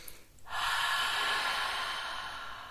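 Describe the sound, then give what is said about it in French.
A long, deep inhalation through the nose during a guided relaxation exercise for insomnia, heard as a steady, soft rush of breath that begins after a brief quiet moment and holds for about two seconds. “Grande inspiration par le nez.”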